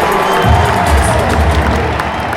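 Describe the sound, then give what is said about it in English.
A baseball crowd in Toronto cheers after a hit drives in a run, a loud, steady roar of many voices that holds for about two seconds. “Getting a triple. He's pumped up. You can see it. Listen to the crowd.”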